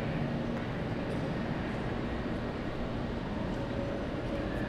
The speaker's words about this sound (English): A train is arriving.